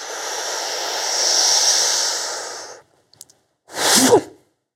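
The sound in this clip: Deep breathing during a standing breathing exercise in a horse-riding stance: a long, airy breath of nearly three seconds, a pause with a few faint clicks, then a short, forceful burst of breath.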